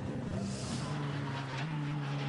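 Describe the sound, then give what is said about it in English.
A Dacia Logan car driving on a race circuit, its engine a continuous humming drone that steps slightly higher in pitch partway through, steady in loudness for the whole clip. “the Dacia Logan is out on circuit at the moment. Yeah, just coming down towards Brunschen.”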